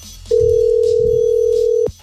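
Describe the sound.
A telephone ringback tone sounds as a call is placed to a listener, one steady mid-pitched electronic tone holding for about a second and a half, alone with no voices.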